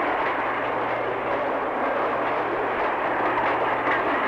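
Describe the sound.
A freight train of mostly empty cars rolls slowly over low rail joints under a slow order, giving a steady, broad, rumbling roar with a low hum beneath and no distinct clacks.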